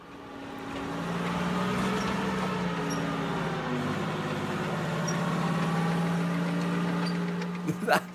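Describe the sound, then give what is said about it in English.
A tank's engine drones steadily as it drives through rural Oxfordshire countryside. A continuous, loud, low rumble with a humming tone holds throughout, and a few brief louder knocks come near the end. “That is the sound of Vivienne Westwood driving a tank through the rural Oxfordshire constituency of Witney with anti-fracking slogans on it.”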